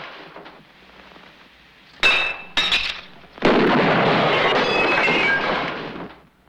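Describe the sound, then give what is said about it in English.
Window glass smashed with a rifle: two sharp, ringing cracks of breaking glass, then a long, loud burst of harsh rushing clatter lasting a couple of seconds before it fades out. “takes the rifle, smashes a window, and fires at the hotel.”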